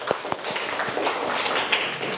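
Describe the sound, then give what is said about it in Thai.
Applause in a class for two students, faint overall: a few sharp, separate claps near the start, then a soft, scattered patter of hands that continues evenly. “โอเคดีมากๆเลยปรบมือให้ทั้ง2คน”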